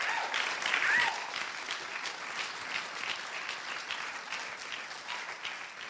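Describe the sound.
Church audience applauding to welcome a speaker: a sustained wash of many clapping hands that stays steady and loud, easing off slightly toward the end, with no talk over it.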